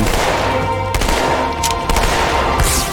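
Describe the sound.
Shotgun gunfire in a video game: a few sharp, loud blasts cut through a dense, steady bed of game noise.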